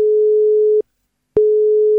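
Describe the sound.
Telephone line tone on a phone call: a steady, single-pitched electronic tone sounds alone, cuts off for about half a second, then resumes at the same pitch and level.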